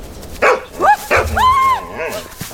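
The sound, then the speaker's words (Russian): A dog barks behind a wire mesh fence. A few sharp, loud barks are mixed with higher, wavering yelps and whines in quick succession. “С другой стороны сетки появляется собака.”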